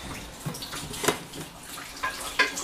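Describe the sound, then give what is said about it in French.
Tap water runs as a buttery dish is rinsed under the faucet, a soft, continuous splashing flow with a few brief louder splashes and knocks. No one speaks. “on va rincer un peu le reste. Hop.”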